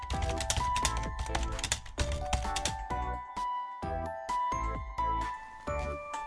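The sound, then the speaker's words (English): A credit card number is typed on a computer keyboard, with many quick, uneven key clicks mixed with bright jingling, chiming tones. “Your student credit card number? I guess I just type it in here.”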